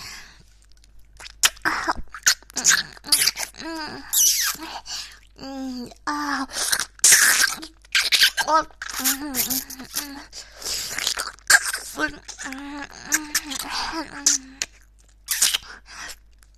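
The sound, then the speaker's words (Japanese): Wet ASMR ear licking and kissing, with many close, crisp mouth smacks and clicks arriving in uneven bursts, and soft voiced moans and breaths between them. “じゃあこっちは耳舐めだ。こっちはキスしちゃおっと。”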